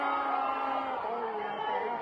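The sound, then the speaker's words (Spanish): A baseball crowd roars for a strikeout late in a game, a brief, sustained swell of massed voices with a chanting, tonal edge, steady and moderately loud for about two seconds. “El público medía el ponche. Oiga la afición. La afición reclama el ponche.”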